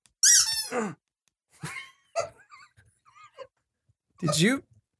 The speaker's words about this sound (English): Did you just fart? No. Then what was that squeak? My fanny. My fanny squeaks.